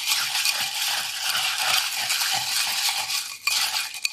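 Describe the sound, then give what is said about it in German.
Ice is added to a mint drink, making a quick, rhythmic rattle of cubes clinking in the glass. One sharper knock comes near the end, and the sound stays fairly soft throughout. “Das heißt, ich gebe mich gleich voll, weil ich gucke, dass ich jetzt ein bisschen Eis dazugebe, das kurz anziehen lasse.”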